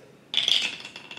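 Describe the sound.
Dice rolled during a tabletop role-playing game: a sudden rattling clatter that trails off into a few lighter knocks, brief and with no talk.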